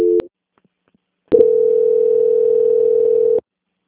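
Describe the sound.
Telephone tone during a call transfer: a brief beep, about a second of silence, then a steady single-pitched tone that lasts roughly two seconds and cuts off abruptly.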